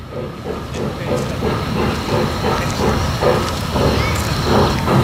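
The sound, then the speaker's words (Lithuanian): Small children's tourist train in central Vilnius coming to a stop: a loud, steady rumble with rhythmic clattering and a constant hiss. “jūs ką tik sustojate su traukinuku, kuris vežioja vaikus po Vilniaus centrą”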